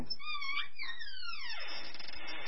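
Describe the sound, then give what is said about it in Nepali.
A daughter cries alone in her room as her wedding nears, letting out a single drawn-out wail that slides steadily downward in pitch. “नानी, के भयो, किन रोएको?”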